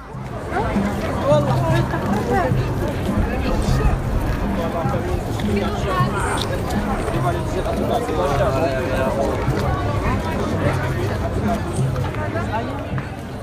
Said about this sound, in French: El Fna, c'est la place vers laquelle semblent converger toutes les énergies. Si vous voyagez à Marrakech, vous découvrirez vite qu'il est impossible de ne pas y mettre les pieds.